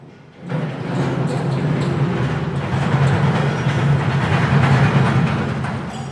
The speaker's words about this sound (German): der fährt jetzt, macht jetzt noch voll den Greifer, dann fährt er ihn zur Mitte, gibt ihn auf und dann wandert die Schlacke rüber zu unserer Aufbereitung